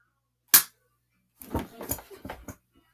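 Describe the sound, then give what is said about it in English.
A single sharp gunshot sound effect in a robbery skit: one short, bright crack, then a moment of silence, followed by a run of softer, brief sounds. “Do I need to shoot you again?”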